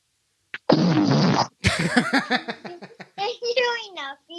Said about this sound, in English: I'm pretty sure that someone just farted into the phone.